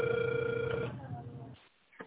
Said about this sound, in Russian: Пока что абонент не отвечает. Пока я звоню дальше,